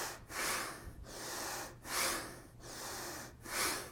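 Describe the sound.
Bhastrika bellows breathing exercise: a series of forceful, rushing nasal breaths in a steady rhythm, about five strong strokes, each separated by a brief pause, fairly quiet.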